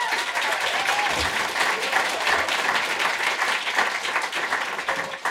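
An audience applauds and cheers with thick, continuous clapping that holds at an even, loud level from start to finish, its texture broad and hissing with no pause.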